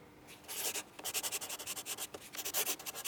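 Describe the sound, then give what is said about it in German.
A pen writes a medical certificate on paper with many quick, soft, scratchy strokes in an uneven rhythm. The strokes are faint and there is no talking. “Ich schreibe ein Attest für eine Woche.”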